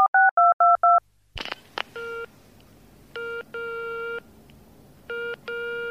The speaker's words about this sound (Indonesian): Tak pencet nomor telepone.